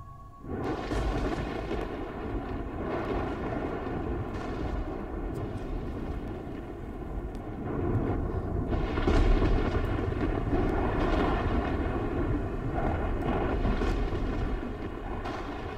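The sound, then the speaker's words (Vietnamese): Thunder rumbles in a storm as a continuous, deep, heavy roar. It holds steady, then swells louder about halfway through, and no voices are heard. “Sấm chớp cũng bắt đầu nổ đì đùng, quang cảnh cũng cảm thấy u ám đến kỳ lạ.”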